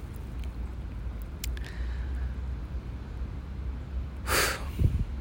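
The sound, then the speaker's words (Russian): A deep exhale during a breathing meditation: one breathy rush of air near the end, rising above a low, steady background hiss. “выдох”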